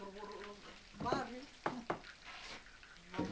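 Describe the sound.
Boiling grape pomace is stirred, giving faint bubbling and sizzling with a few sharper scraping strokes at uneven intervals.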